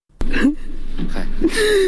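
A grieving father in Nangarhar province cries and wails for his three sons, who were killed by unknown gunmen. His voiced cries waver and rise, and sharp gasping breaths break between them.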